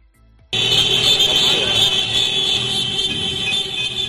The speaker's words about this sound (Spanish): este es el sonido de las bocinas de las motos de decenas de repartidores de plataformas digitales como Glovo, Uber Eats